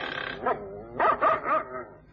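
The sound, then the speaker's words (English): Dog barking at a house, several sharp mid-pitched barks, the last three in quick succession, loud and without any talk. “how many dogs has the old girl got?”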